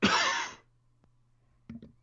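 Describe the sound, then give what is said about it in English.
A person coughs once, a loud, harsh, rasping burst that fades within half a second. Quiet follows with a faint low hum, then a shorter, softer noise near the end. “Did you catch that cough? Yeah, I did. Damn it. I screwed up. I thought I hit my mute button.”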